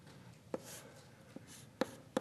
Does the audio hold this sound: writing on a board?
yes